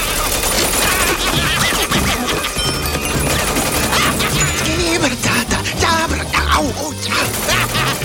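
A robot's arms fire as cartoon machine guns in a dense, continuous clatter of rapid shots and crashing impacts. The loud barrage runs without a break.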